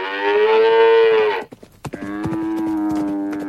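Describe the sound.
A cow moos twice, each a long, loud, harmonically rich low bellow. A short broken gap with a few clicks separates the first moo from the second, which holds steady to the end.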